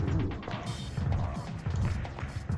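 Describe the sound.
A trash can crashes in a video game, a dense, continuous clatter of banging and noisy impacts that stays loud for the whole short stretch.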